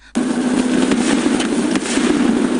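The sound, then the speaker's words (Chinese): Firecrackers set off in a remote primeval forest, bursting in a dense, continuous crackling barrage that starts abruptly and stays loud throughout. “什么声音？ 点上放炮呢。”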